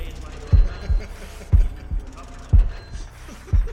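A low, muffled heartbeat thumps in steady lub-dub pairs, about one beat per second, over a faint hum. Each double thud is soft and deep.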